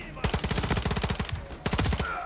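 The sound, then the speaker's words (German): Automatic gunfire in the Modern Warfare 3 campaign, on a snowy level. Two long, rapid machine-gun bursts of sharp, loud shots are separated by a brief pause. “Da vorne ist er. Der, die schießen hier durch.”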